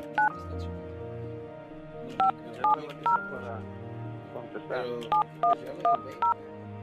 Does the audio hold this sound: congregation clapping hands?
no

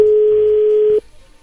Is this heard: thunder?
no

